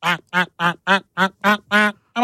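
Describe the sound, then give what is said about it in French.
A duck quacks eight times in a steady, evenly spaced rhythm. Each quack is a loud, nasal, harmonic burst, heard alone, and the last one is cut off. “Oh, il est fort. Balèze le canard.”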